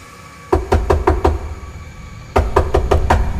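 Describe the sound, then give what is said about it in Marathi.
Knocking on a door: two quick bursts of five sharp, evenly spaced raps, separated by a pause of about a second, over a steady low background hum. “तसा मी सतर्क झालो आणि थोड्याच वेळात कोणीतरी दरवाजा वाजवला.”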